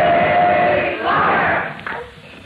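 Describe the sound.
A crowd bellows the Columbia University college cheer, a rah-rah chant of many voices. The massed shouting is loud and sustained, then tails off toward the end.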